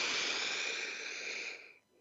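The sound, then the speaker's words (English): A deep breath drawn in through the nose, heard alone as a long, steady airy hiss that holds for over a second and a half and then fades out. “I'm going to encourage you to take a deep breath in through the nose,”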